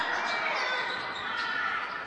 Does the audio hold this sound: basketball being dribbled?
yes